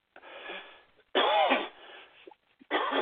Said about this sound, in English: excuse me again, I really apologize for my cough.